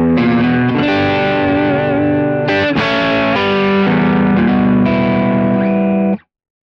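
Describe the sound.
Distorted electric guitar through a Kemper Profiler amp with a lowered definition setting and the effects mix at 90%, playing loud sustained notes and chords with a clear change near the middle, then cutting off abruptly at the end.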